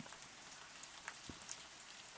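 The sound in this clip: Steady rain falling on a surface on a rainy day at a mountain home: a soft, continuous hiss with a few scattered, slightly sharper drop ticks, faint throughout.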